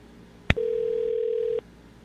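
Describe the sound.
A telephone tone heard while a call is placed: a brief click, then a steady single-pitched tone held for about a second before it cuts off abruptly, alone with no voices.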